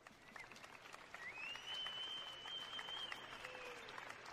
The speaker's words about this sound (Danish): Det ender, ikke overraskende, med et stort bifald.